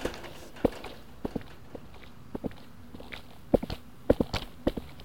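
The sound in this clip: Footsteps walk across to fetch a glass of water: many faint, irregular soft taps, some in quick clusters, with no talk.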